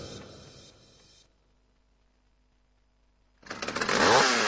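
A chainsaw cutting native forest trees. A low engine rumble fades to near silence, then the saw bursts in with a loud, harsh roar that grows stronger to the end.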